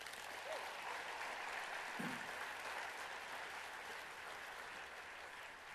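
An audience applauds to welcome a young boy onto a stage for an interview: steady, dense clapping that holds evenly for several seconds and eases slightly toward the end.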